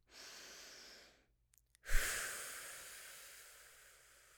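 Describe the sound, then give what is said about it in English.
A deep breath taken alone: a soft inhale of about a second, a short pause with a few small clicks, then a louder, gusty exhale that slowly fades away. “So let's just take a deep breath right here,”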